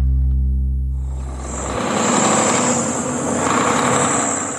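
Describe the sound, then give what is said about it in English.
A soybean and corn farmer's truck drives home on a chilly November day in north central Minnesota. A low tonal engine hum gives way to a broad, loud road rumble that swells and eases. “Dave Gary, a soybean and corn farmer, is driving his truck heading home.”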